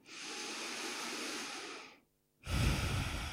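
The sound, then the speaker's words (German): A single deep breath drawn in and let out during a meditation exercise focused on the heart. A long, airy inhale is followed by a short pause, then a fuller, heavier exhale, with no voices present. “Und atme tief ein in den Herzraum. Spür, wie das Herz sich weitet und hebt. Und mit der Ausatmung, wie das Herz sich entspannt.”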